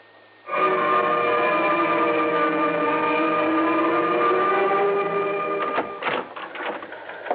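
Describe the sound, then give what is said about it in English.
A teletype machine clatters loudly, starting abruptly into a dense, steady mechanical rattle with a droning hum, then breaking into irregular clacks toward the end. “I've been staring at that teletype machine out there until I can't see straight.”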